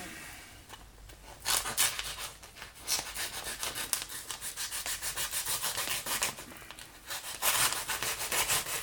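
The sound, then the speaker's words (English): A machete roughly working wood: many rasping, scraping strokes in a fairly steady rhythm, bright and gritty, continuing throughout with brief pauses and no voices. “The machete continues to roughly work.”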